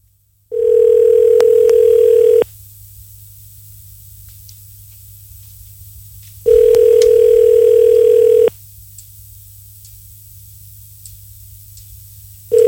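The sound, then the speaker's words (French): A telephone tone plays while a number is being redialed. The steady mid-pitched tone sounds in two-second bursts, with about four seconds of near silence between them. Two full bursts are heard, then the start of a third. “Allez, on va essayer. Recompose le numéro de téléphone, mec.”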